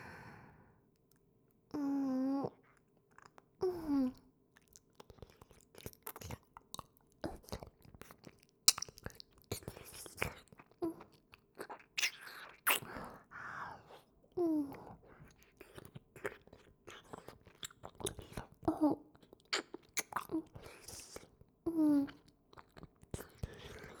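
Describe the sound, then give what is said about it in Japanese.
Wet licking and slurping mouth sounds: many soft smacks, clicks and sucking noises in a close, quiet stream, broken by several voiced, breathy sighs. “やっぱり美味しい。夢中になって舐めまくっちゃってた。”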